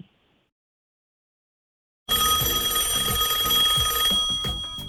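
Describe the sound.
A telephone rings after about two seconds of silence, a loud, bright, rapidly pulsing trill that runs steadily for a couple of seconds and then fades and breaks up toward the end.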